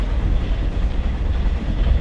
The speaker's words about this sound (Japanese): 列車はおよそ10分で函館に着きます。